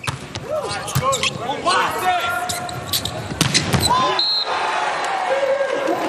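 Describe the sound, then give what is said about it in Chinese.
A volleyball bounces on the court before a serve in a match involving Brazil, giving a few sharp thumps beneath a commentator's voice and steady crowd noise. “李永贞来发球”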